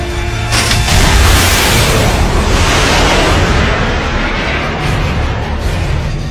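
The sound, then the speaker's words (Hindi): A missile firing produces a loud, sustained rushing roar that fills the whole six seconds and fades slightly toward the end. “Missile fire हो गया है जनाब।”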